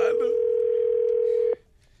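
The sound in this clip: A steady telephone tone sounds as a call is placed: one unbroken, mid-pitched hum holds for about one and a half seconds, then cuts off abruptly to near silence.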